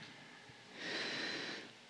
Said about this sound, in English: just by taking a few nice soft breaths into your body.